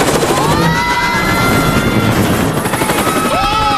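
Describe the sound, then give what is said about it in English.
A damaged helicopter spins out of control as its rotors cut through treetops: a loud, unbroken rotor roar with dense chopping texture and whining engine tones that bend in pitch, continuing steadily throughout. “The propellers cut through the tops of trees and the helicopter spins out of control.”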